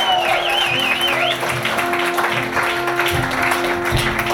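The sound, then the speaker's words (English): Audience applause welcoming a musician to the stage: sustained, dense clapping that fills the whole stretch, with a steady low tone running underneath. “Welcome to the stage. I'm so delighted to welcome Megan Henwood. Here she is. Give”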